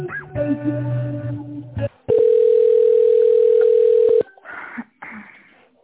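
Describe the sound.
Telephone line tone while a call is being transferred: a buzzing harmonic tone gives way to one steady mid-pitched tone lasting about two seconds, which cuts off abruptly before a few brief sounds.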